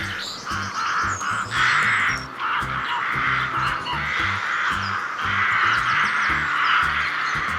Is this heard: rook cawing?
yes